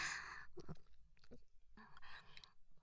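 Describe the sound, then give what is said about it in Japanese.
Soft, wet chewing of omurice, worked thoroughly until mushy, with several squelchy bites at an irregular pace. The sound is faint and has no talk over it. “こうやってぐちゃぐちゃのドロドロになるまで十分に咀嚼して、”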